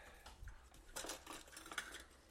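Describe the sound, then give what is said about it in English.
Utensils clink and rattle as someone rummages through a kitchen drawer, a faint, brief jumble of metallic taps and scraping. “I gotta go look through the drawer.”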